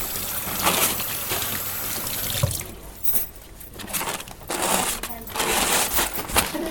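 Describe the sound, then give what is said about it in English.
Hands are washed under running water, giving an uneven splashing trickle with brief dips and swells that runs for several seconds. “Washing hands.”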